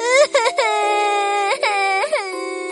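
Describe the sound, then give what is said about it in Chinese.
A performer's voice imitating loud crying for Mimi the crocodile in a children's story: a sustained, high wailing sob broken by a few quick catches and swooping rises in pitch, loud and alone. “鳄鱼米米坐在地上，难过的哭啊哭啊，哭的所有人都听到了。”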